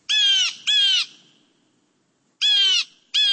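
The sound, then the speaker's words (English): Steller's jay calling: four harsh, rasping, nasal calls in two quick pairs, loud and alone, with a pause of over a second between the pairs. “this is the Steller's jay. If you're west of the Rocky Mountains, you're most likely to hear the Steller's jay.”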